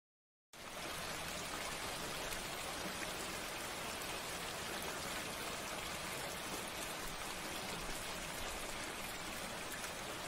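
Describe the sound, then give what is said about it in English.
Steady rain falls in a video game, a dense, even hiss that starts abruptly and holds at the same level throughout, with no voices over it. “It's raining outside.”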